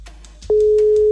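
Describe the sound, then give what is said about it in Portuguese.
Ringing tone on an outgoing telephone call: a single steady, mid-pitched electronic tone starts about halfway through and holds unbroken to the end, over faint background noise. “Primeiro toque”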